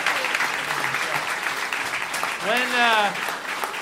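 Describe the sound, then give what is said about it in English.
An audience gives applause, a steady, even wash of clapping that holds for nearly four seconds, with a voice speaking over it briefly near the end. “So, how about a hand for Eva and Raquel? Thank you.”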